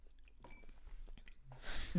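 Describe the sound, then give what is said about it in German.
Dry noodles are crunched and chewed in faint, irregular bites, ending with a slightly louder crunch. “das ist richtig unangenehm, dieses Nudelcrunchen jetzt auf der Tonspur”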